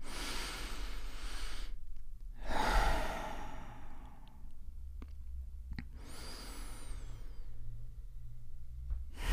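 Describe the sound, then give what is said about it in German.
Deep breaths in and out during a guided relaxation exercise: three slow, airy breaths with quiet pauses between them, soft and alone without talk. “Und wir nehmen erstmal drei tiefe Atemzüge gemeinsam.”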